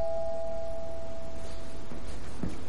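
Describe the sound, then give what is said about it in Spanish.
A doorbell at the porch of a house sounds as one sustained chime tone that slowly fades away over steady background hiss. “toca el timbre”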